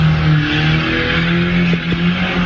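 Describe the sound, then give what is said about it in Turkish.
Tires squeal as a car drifts, giving a continuous high screech layered over a steady engine roar. The sound holds loud and even throughout, with no talking. “Otomobiliyle drift attı.”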